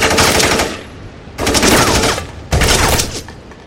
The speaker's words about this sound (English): You got a license for that automatic rifle